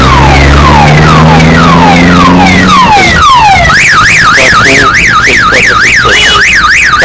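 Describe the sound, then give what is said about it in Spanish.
A car alarm blares from a vehicle with people inside. It repeats a run of downward-sweeping tones, then switches to a fast, high up-and-down warble. The sound stays loud and steady throughout, with no talking. “Hay gente dentro de ese vehículo y este está con alarma”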